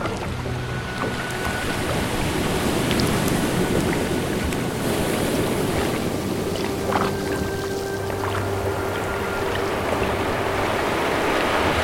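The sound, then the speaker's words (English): An oar paddles a boat out through cold water toward the current: a steady, continuous wash of sloshing and lapping water with a faint breath of wind, and no voices. “Now start paddling with that oar until we're far enough out that the current can take us where we need to go.”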